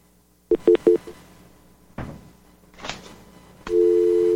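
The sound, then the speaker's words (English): Telephone line tones sound after a caller's line drops: three quick beeps, a few scratchy bursts of noise, then a loud, steady, unbroken tone. “Oh, we lost William. Well, if you dial right now, William, we may be able to get you back in.”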